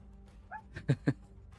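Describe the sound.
A dog lets out a brief faint whine, then two short, low barks in quick succession, with quiet background otherwise.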